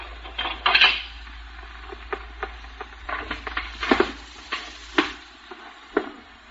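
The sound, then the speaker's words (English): Clinking and clattering of a pickle dish breaking: a handful of sharp china knocks and rattles spaced irregularly, fairly quiet, with no voices. “I want to know who done this. I want to know who broke this pickle dish.”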